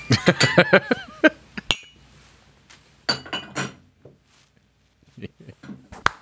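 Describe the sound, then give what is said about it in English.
Cups clink together in a toast, a few bright ringing taps close together at the start, followed by scattered knocks and people talking. “Cheers. Cheers. Clink.”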